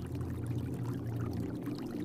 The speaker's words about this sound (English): The sound of thundering falling water causes the earth to gently vibrate.